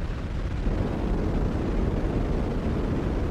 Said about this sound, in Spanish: La nave cohete se eleva como un trueno plateado, abriendo el cielo en dos con su estela de fuego y humo brillante